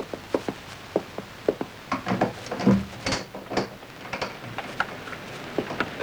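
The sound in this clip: A door being opened: a run of sharp clicks and latch rattles, then a denser burst of creaks and scraping near the middle, followed by more scattered ticks and knocks.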